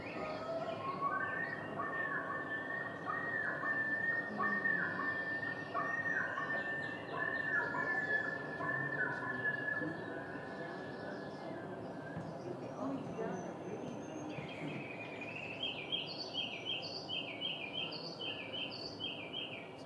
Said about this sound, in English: So these are called whale calls. Those are really pretty. And then the, I'm pretty sure this one's called a yodel, which is the best.